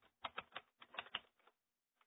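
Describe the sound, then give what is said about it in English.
Typing on a keyboard: a quick run of many clicking keystrokes, a short pause, then a couple more taps at the end. “Let's type that in here. Here we go.”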